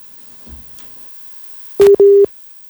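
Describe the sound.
A busy tone sounds after a phone call is cut off: two loud, steady, mid-pitched beeps in quick succession, following a stretch of near silence with faint low rumbles.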